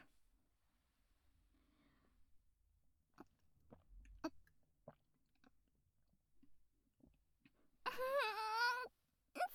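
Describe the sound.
Eating sticky, slimy food with ponzu: faint, scattered wet mouth clicks and chewing sounds, followed by a brief, higher voiced murmur near the end.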